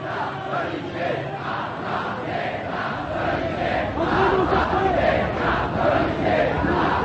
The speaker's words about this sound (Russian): Толпа молодежи на бульваре Сан-Мишель скандирует «Долой полицейское государство».